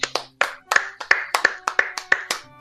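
Hand clapping: many sharp, fairly even claps in a brief round, each one crisp and bright, with no talk over them.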